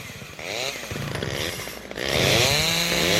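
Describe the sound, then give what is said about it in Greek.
Chainsaws running, their engines revving with a harsh buzzing tone that rises and falls in pitch, then grows louder and steadier near the end. “Πριόνια. Πλάκα έκανα.”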